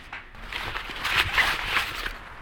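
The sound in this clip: Soft footsteps of someone walking back into a room: a few muffled, uneven steps, faint and heard alone without any talking.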